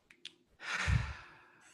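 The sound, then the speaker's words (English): A single deep breath taken during a guided breathing moment, a long breathy exhale that swells quickly and then fades slowly over about a second, heard alone without talk. “So I'm going to ask you to breathe.”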